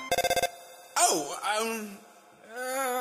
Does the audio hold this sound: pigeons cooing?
no